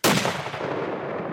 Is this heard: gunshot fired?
yes